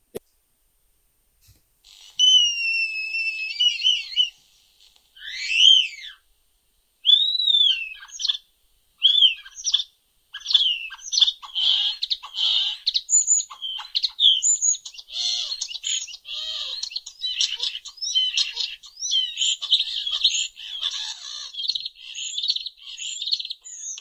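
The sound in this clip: A mimicking bird sings a long, varied sequence of high whistles, swooping chirps and rapid clicking trills. It starts with sparse separate notes and builds into dense, continuous chatter, loud and alone.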